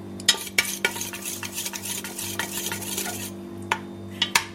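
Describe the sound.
Utensil stirring onions cooking in a pan: many irregular scrapes and clicks against the pan over a soft, steady sizzle and a low background hum, with no talk.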